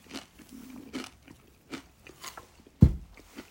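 Chips being bitten and chewed: a string of faint, crisp crunches, then one much louder bite near the end, with no talking.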